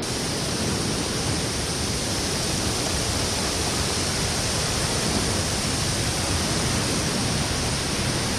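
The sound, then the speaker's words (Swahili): Rushing water as the sea parts: a loud, unbroken roar of churning water that stays steady and unchanging throughout, with nothing else heard. “Mmeona, Mungu amewatawanyia maji na kuwajengea ukuta wa maji upande wa kushoto na mwingine upande wa kulia.”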